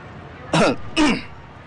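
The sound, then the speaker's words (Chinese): Two light, throaty coughs, short and evenly spaced, heard alone with no talk. “冯云山不再客气，轻咳了两声，开始讲话。”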